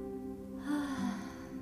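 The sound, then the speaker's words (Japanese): A deep breath exhaled slowly through the mouth, a soft airy rush that swells and then tapers, heard over a steady sustained tonal background. “では深呼吸します。口から呼吸を吐いて、”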